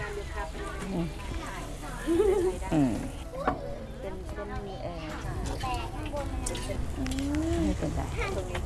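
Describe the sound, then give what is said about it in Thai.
Food frying until cooked gives a steady, continuous sizzle that runs beneath people talking throughout. “อ๋อแต่อันนี้คือเอามาทอดให้มันสุก ค่ะทอดให้มันสุก”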